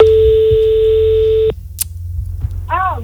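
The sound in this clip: A telephone ringback tone as a call is placed live to someone in the Loire department of France. One steady, buzzing tone holds for about a second and a half, then cuts off, followed by a brief sharp click.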